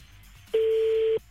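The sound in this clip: A single ringback tone sounds on an outgoing telephone call: one steady, mid-pitched electronic beep lasting under a second over a faint background hiss.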